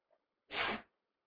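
A single sneeze bursts out sharply and briefly on its own, loud against near silence, during a religious lecture on Islamic jurisprudence.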